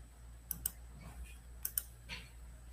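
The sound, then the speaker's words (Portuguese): A computer mouse is clicked in two quick pairs of sharp, faint clicks, separated by a pause, over a low steady hum. “Tô clicando, não tá abrindo.”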